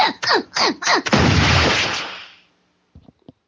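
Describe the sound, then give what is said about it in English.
An aircraft ejector seat launches in a Simpsons cartoon: four quick bursts with falling pitch lead into a loud roaring blast that fades out over about a second, followed by a couple of faint clicks. “No, he was in an aircraft, and he launched himself with the ejector seat.”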